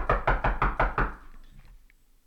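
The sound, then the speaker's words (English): Knocking on a front door: six quick, hard raps in a steady run, each a sharp thud, followed by a short quiet tail. “So my Uncle Willie gets to the door and I hear this,”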